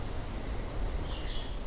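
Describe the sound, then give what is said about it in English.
A thin chorus in degraded rainforest with few species of insects and birds: one steady, high insect trill over a low hum, faint and unchanging. “far fewer species contribute to the chorus when the forest is degraded.”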